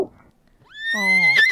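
A horse whinnies once and loudly: a rising cry that settles into a sustained, harmonic-rich neigh, with a short shaky flutter near the end.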